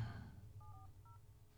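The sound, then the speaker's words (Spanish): Faint telephone dialing tones while setting up an additional call: two short touch-tone beeps over a low background hiss. “Voy a tener que generar una llamada contigo, Lou, adicional, y juntar la llamada.”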